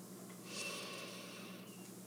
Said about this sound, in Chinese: 深吸一口气，鼻子吸气。